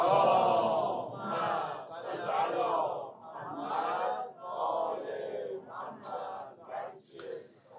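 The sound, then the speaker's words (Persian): Congregation reciting salawat together: many voices chant in unison in loud, swelling phrases that rise and ebb in steady waves, with no single voice standing out. “صلواتی خط بفرمایید.”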